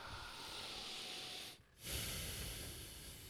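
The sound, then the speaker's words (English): A deep breath taken to relax: a long, loud rush of breathy air, a brief pause, then a second sustained breath of air. “All right, let's take a breath.”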